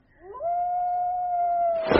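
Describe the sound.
A long-drawn, wavering howl from a canine: one sustained tone that slides up at the start, then holds a fairly level pitch for over a second before breaking into a short burst of noise. Loud and alone.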